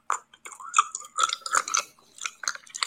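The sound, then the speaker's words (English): ASMR mouth sounds: many wet clicks, smacks and chewing-like pops come in an irregular rhythm, fairly faint and close, with no talking. “This is called ASMR mouth sounds.”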